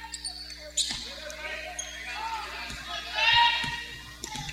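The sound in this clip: A basketball is dribbled on the court during a high school girls' basketball game between Dixie Heights and East Central. Several sharp bounces land at a steady pace over a low gym hum and murmuring voices.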